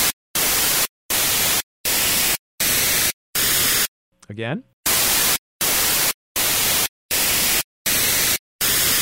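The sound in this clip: The Head Stretch sound illusion, played through two speakers, consists of a long series of evenly spaced, equal bursts of loud hissing static. A single spoken word briefly interrupts the pattern midway.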